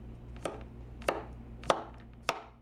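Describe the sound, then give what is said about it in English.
A knife chops pale yellow squash in a family kitchen: four crisp, evenly spaced cuts, each a sharp knock on the board over a faint, steady hum. “slices pale yellow squash in her family's kitchen this afternoon, preparing a tasty after-school nosh”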